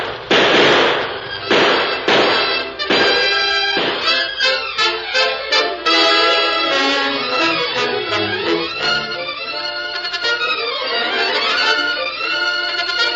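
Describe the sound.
Gunshots in a Western shootout from an old-time radio drama: several loud, sharp shots crack in the first few seconds, then loud music swells and continues.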